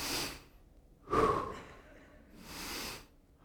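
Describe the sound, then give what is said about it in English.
Breathing in and out through the throat and chest: three harsh, airy breaths with a raspy, gasping edge. Each rises and fades, separated by quiet pauses. “it sounds like the sounds that come from your throat and your chest when you breathe.”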